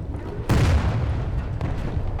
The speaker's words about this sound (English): Okay, that one went all the way in and it exploded.